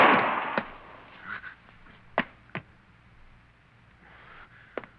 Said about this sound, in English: What's he mean, you killed him? He shot himself.